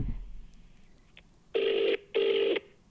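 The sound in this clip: Phone call ringing out: two loud, even ringback tones, each lasting about half a second, follow a quieter stretch of background sound.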